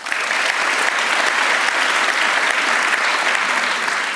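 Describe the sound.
Dense, steady applause fills the room as an audience welcomes panellists to a discussion on Trump's new world order, an even wash of clapping with no pauses.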